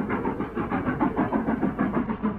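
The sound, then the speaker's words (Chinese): A steam train pulls away from a city station, giving a steady run of rhythmic, fairly loud chuffing pulses. The beat repeats evenly throughout, with no other sounds. “随着一声汽笛长鸣，火车徐徐地开动。”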